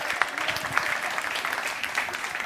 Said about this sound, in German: Ich weiß nicht, ob das dafür der Applaus ist oder für den Song.